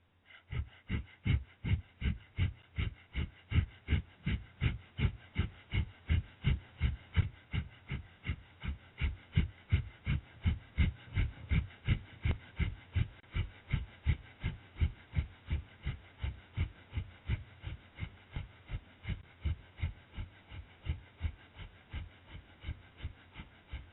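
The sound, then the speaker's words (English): Breath of fire yoga breathing: many rapid, forceful exhalations through the nose, about two per second, in a steady, unbroken rhythm of short, breathy puffs at moderate volume. “The breath to be using is breath of fire, and we're going to do this for 2 minutes.”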